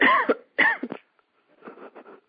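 Two loud, harsh coughs come in quick succession, followed by quieter, throaty sounds.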